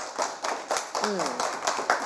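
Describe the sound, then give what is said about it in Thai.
Children clap for a classmate after a correct answer in a classroom counting game. The applause is faint, a steady run of quick hand claps, with a voice heard briefly among them. “ปรบมือให้เพื่อนด้วย”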